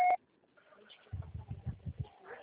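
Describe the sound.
Voicemail beep on a phone call, a single short, clear electronic tone at the very start, then near quiet.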